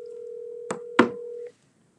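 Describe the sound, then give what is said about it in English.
A telephone line gives a steady low dial tone for about a second and a half while a call is placed. Two short, sharp bursts break the tone before it cuts off into silence. No one speaks. “We're gonna call lucky number 18”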